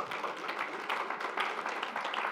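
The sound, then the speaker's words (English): Audience applause, a steady wash of many hands clapping at moderate volume without a break. “All right, both of you sit down. Give him a round of applause.”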